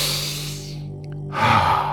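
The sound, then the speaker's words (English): A deep breath drawn in during a guided breathing exercise: a single breathy, full-bodied inhale swells up after a short lull and holds steady to the end, over a faint low drone. “One more deep breath in.”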